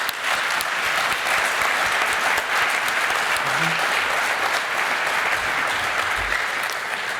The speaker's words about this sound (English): So, huge round of applause for everybody who is involved in this process.